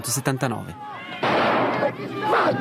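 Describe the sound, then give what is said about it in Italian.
A few sharp gunshots from the finale of Federico Fellini's 1979 film Prove d'orchestra cut through an uproar among musicians. Voices and a noisy, sustained commotion follow. “Una serie di spari arresta questo putiferio tra musicisti.”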